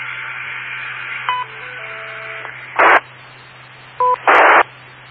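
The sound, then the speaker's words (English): A radio repeater sends its courtesy tone after a user unkeys. Short electronic beeps and tones sound twice, each followed by a burst of squelch hiss, over steady static and a low hum. “Yes, it's a courtesy tone. It's used to indicate that that you've waited beyond a certain time.”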